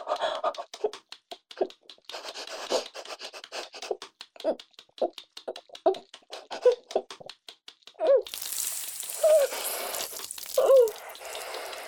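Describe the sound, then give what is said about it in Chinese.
Loud popping and spraying water: many sharp, irregular pops over the first eight seconds, then a sudden, steady, loud hiss of spraying water that lasts to the end. “你听到很大的啪啪声，还有喷水声。”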